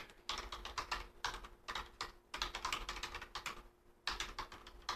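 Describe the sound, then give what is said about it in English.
Quiet keystrokes on a computer keyboard come in several quick runs of rapid clicking, separated by brief pauses. “That's the sound of me typing because I forgot to put...”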